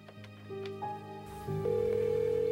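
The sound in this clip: Telephone number being dialed: faint electronic tones step between different pitches before settling into a steady, louder continuous tone.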